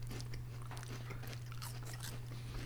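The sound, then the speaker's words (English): Crisp crunching bites into a sake-flavoured Kit Kat wafer bar, a few dry cracks and chews heard faintly over a steady low hum, with no talking. “All right, here we go. This is a sake Kit Kat.”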